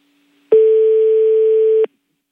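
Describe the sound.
A telephone line tone sounds after a call is cut off: one steady, even tone of about a second and a half that starts and stops abruptly, alone on a quiet line.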